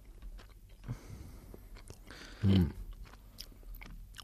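Chewing a slice of cheese with part of its rind left on: faint, soft mouth sounds with one louder crunching bite in the middle.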